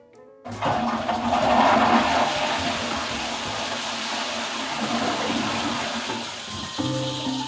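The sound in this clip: A toilet flushes nine litres of drinking water in a drought-stricken area: a sudden loud rush of water that churns steadily for several seconds, then thins as a lighter refilling trickle begins.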